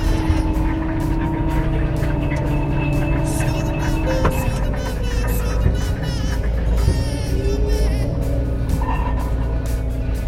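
A sugar beet harvester lifting beets while steering itself on autoguidance gives off a steady engine drone: a continuous low rumble with faint whining tones, unbroken and even throughout.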